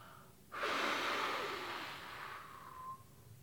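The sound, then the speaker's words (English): A deep breath drawn in through the nose and blown out through the mouth, as in a guided candle-blowing breathing exercise: one long, breathy rush of air that starts abruptly, holds steady, then slowly tapers off, with no talking. “We're going to breathe in through your nose. And then we'll breathe out your mouth onto the candle.”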